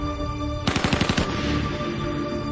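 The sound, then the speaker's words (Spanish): A short burst of machine gun fire near a helicopter, with a quick run of sharp, loud shots packed into under a second, then a noisy tail that fades off. “Kaun reacciona y dispara una ráfaga que abate a Scafaro y que perfora el chasis del helicóptero.”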